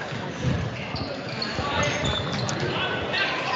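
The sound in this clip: A basketball being dribbled on the court during a game: repeated thumping bounces under steady crowd noise.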